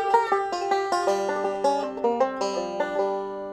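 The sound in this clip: A bluesy lick is played on a guitar, heard alone. It is a quick run of bright plucked single notes, with some notes ringing over one another at a moderate, even pace.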